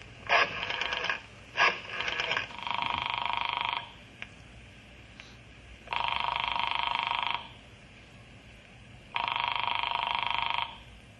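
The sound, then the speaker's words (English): A telephone rings in repeated warbling bursts: a few short trills at first, then longer rings separated by pauses of silence. The tone is bright and moderately loud. “I'm going in the office now and call Dr. Horace Talbot.”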